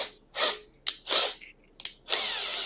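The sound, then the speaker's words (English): Power drill with a 5 mm bit drilling holes, whirring in several short, loud bursts of rising speed with brief pauses between, ending in one longer steady run. “Okay, so let's go ahead and drill these holes out.”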